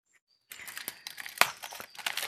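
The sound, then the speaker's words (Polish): The seal band is torn off a jar of pike in aspic with pickled strawberries: a quiet run of crinkling, crackling rips with a few sharper snaps, and no voices. “Banderole. Aha. ściągam banderole.”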